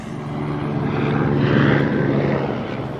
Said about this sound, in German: Sogar ein Stern lässt sich blicken. Einen solchen Stern wirst du in der Wildnis niemals finden. Ist ein Hubschrauber.